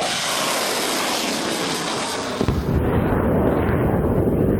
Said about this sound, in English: The Mersads launched their missiles one after the other.